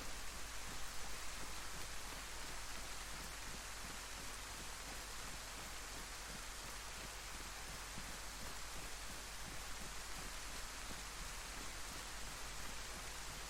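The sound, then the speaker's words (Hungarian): Rain falling while someone walks outdoors, a dense, steady hiss of drops that stays even and unbroken throughout, fairly faint and with no voices. “Jó sokat kutyagolok most már az esőben, őrület.”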